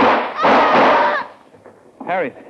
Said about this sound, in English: If you'd dropped that gun, Benson, instead of trying to shoot it, you wouldn't have killed your wife.